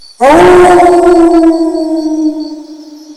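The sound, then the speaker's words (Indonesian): A wolf howls in one long, loud, sustained note that starts abruptly, holds a steady pitch and slowly tapers off toward the end. “Wolf. Wolf.”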